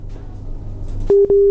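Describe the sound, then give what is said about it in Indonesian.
Telephone tone after a caller to a call-in line is cut off: two short, loud, steady beeps at a single pitch, separated by a brief gap, following a low hum. “Wah, terputus ya. Bisa dicoba lagi nanti ya.”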